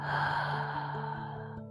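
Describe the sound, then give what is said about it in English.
A deep breath in and out during a guided relaxation, heard as a fairly loud, breathy rush of air that gradually fades toward the end, with no one speaking. “We can take a deep breath in and a deep breath out.”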